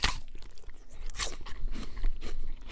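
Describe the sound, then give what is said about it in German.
Crisp crunching of a bite into a red, tart Braeburn apple that is slightly shriveled, with several sharp, bright crunches followed by softer chewing, heard alone without talk. “Lecker. Ein Braeburn, rot und säuerlich und um diese Jahreszeit auch ein wenig angeschrumpelt.”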